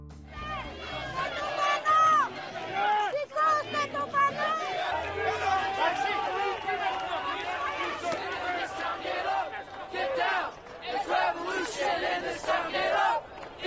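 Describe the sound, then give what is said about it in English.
Crowd of street demonstrators in Athens and New York, a dense mass of overlapping shouting and chanting voices with repeated loud bursts of yelling that rise and fall in waves. “That's the sound of demonstrations in Athens, Greece, and right here in New York City.”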